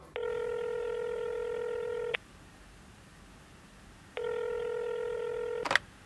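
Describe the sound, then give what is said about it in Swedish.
Outgoing telephone call ringing: two long, steady ring tones, each lasting about two seconds, separated by a silent gap, then a sharp click at the end. “apropå lagkapten Zlatan Ibrahimovic så fick Sonnypodden faktiskt möjlighet att ringa upp honom och prata lite nu”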